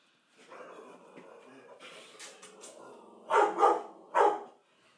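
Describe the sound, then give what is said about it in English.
A female dog barks: three loud, sharp barks close together near the end, preceded by a longer stretch of softer, lower sound. “That's my dog. She likes to bark.”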